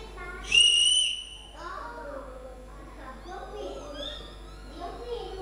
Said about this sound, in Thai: เสียงเป่านกหวีดนั่นเอง